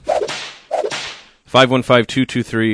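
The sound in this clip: A whip crack sound effect: two sharp cracks, each with a swishing tail, followed by a run of brief, bright tonal bursts.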